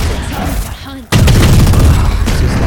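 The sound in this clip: Gunfire in a video game: a sudden loud burst of shots that keeps going as sustained, dense firing, after a quieter opening with a faint voice.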